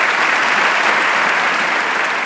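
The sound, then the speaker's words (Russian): Applause breaks out in a hall of biologists after a scientist's lecture on the law of homologous series: dense, steady clapping that holds at an even level for two seconds, with no voices on top. “Когда он заканчивает, зал взрывается аплодисментами.”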